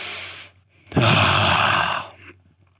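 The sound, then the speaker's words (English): A long breath blown out through the mouth: after a short quiet pause comes a single steady rush of air lasting over a second, which then tapers away. “Now release, blow it all out.”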